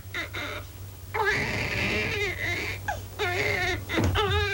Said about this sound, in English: He's just hungry. I'm sorry, my dear. It's a touch of the colic. He's been crying for 5 minutes.